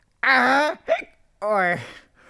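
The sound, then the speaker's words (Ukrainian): Hiccups voiced by a person imitating them: two drawn-out, voiced hiccup sounds with a short gulping catch between them, each tailing off at the end. “Ой, що це? Ой. На тебе напала гикавка.”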